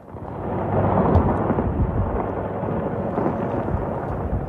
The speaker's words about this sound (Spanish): Ese sonido de los misiles y ese sonido de la guerra está marcando también los mercados.